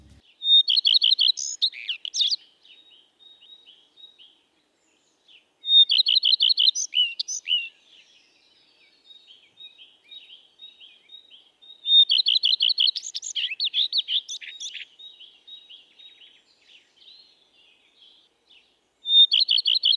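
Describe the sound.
Song of a hole-nesting songbird of broadleaf and mixed woods, parks and gardens: four short, high, melancholy strophes, each opening with a longer note, separated by pauses with quieter twittering between.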